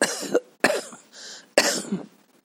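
Someone demonstrates coughing, as when suffering from a cold: three harsh, breathy coughs with a short raspy breath between the second and third, fairly loud and heard alone.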